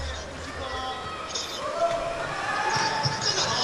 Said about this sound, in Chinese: 曼祖里发球还不错。